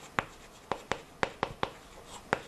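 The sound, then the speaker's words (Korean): Handwriting as a word is written out in Russian: several quick, scratchy pen strokes in an uneven rhythm, faint and alone with no voices. “성격이 러시아어 뭔지 한번 써볼게요.”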